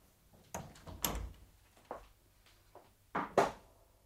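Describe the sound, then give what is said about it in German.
A door is being closed, heard as a few soft clunks and thuds spread across several seconds, fairly faint against a quiet background. “Komm herein und mach die Tür zu.”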